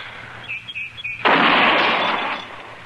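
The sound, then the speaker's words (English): A single rifle shot fired from a gun braced on a fence rail, a freshly repaired rifle: one sudden loud crack followed by a broad roar that lingers for about a second before fading. “Yeah, it's hitting where it's aiming, all right. I guess Andy got the kink out of it. He always does. Takes old Andy a month of Sundays to fix a gun, but once it's done right.”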